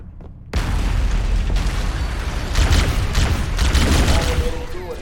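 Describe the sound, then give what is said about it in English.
Life pods launching and exploding in a video game: a sudden loud onset of booming blasts that turns into dense, continuous rumbling and crackling bursts, swelling again partway through. “The life pods are launching. We should hurry. We watch the life pods launch and get blown up. Destroying the life pods.”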